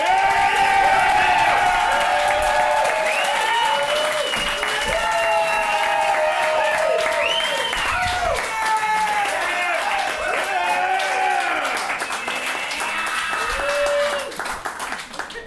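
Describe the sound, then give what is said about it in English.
An audience claps and cheers as a performer is welcomed to the stage, with loud, dense applause and shouting voices that hold for a long stretch before thinning near the end. “Shut up, you can't clap again.”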